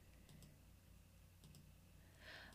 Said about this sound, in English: I just clicked on Facebook right before I'm going to click out of it so it doesn't ding on me.